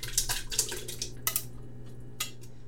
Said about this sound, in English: And so now we're also going to add our 14.5 ounces of diced tomato.